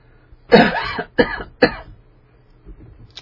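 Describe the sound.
A person clears their throat because of a tickle in it, making three harsh bursts. The first burst is the longest, and a few softer throaty noises follow.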